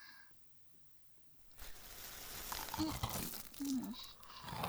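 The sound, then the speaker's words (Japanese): Crinkling and crackling of store-bought snack packaging being opened for a study break, starting after a quiet moment and growing into irregular plastic rustles that continue to the end. “ちょっと休憩する？じゃあ買ってきたおやつ食べよう。”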